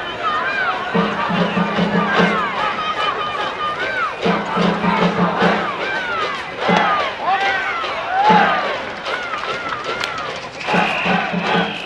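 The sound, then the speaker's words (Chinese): Dense crowd noise at Taipei Municipal Baseball Stadium during a baseball game: steady cheering, shouting and chanting that fill the whole clip, with repeated louder swells. “现在跟着我们一起回到台北市立棒球场。”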